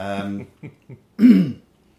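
A person clears their throat with a short, rough, voiced rasp, preceded by a brief vocal sound and two small clicks.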